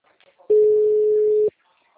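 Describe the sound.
A telephone ringback tone plays on a call: one steady mid-pitched tone that lasts about a second and then stops, heard on its own.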